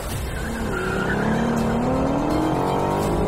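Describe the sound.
Engine of a 2024 Ford Mustang California Special with a manual gearbox revving hard and loud, its pitch climbing steadily throughout, with a rough, continuous roar and a faint squeal-like edge.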